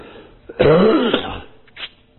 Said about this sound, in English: Excuse me, I apologize for this. Not what I'm going to say, but my cough. I wish I could go out in the hallway and do that.